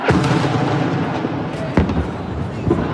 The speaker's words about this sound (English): explosions, one after another. They were close.